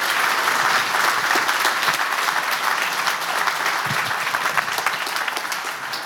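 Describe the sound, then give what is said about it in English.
Congregation applause at a Sunday morning church service, greeting a visiting pastor. Loud, dense clapping runs steadily for about six seconds without a break and eases off slightly at the end. “Let's give God a great hand this morning, too.”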